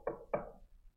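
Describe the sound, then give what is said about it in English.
Two quiet knocks on a door, a short pause between them, each a dull wooden thud that dies away quickly, followed by near silence. “Sometimes you go to talk to someone at the door, you knock on their door.”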